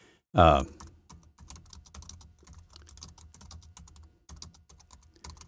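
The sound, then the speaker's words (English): Typing on a computer keyboard: one sharp knock at the start, then a steady stream of quick, light key clicks. “I'm going to type this in and see what we find.”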